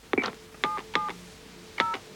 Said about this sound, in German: Er telefoniert jetzt.